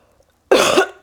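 A person coughs once to clear phlegm from the throat, giving one harsh, loud burst of about half a second after near silence.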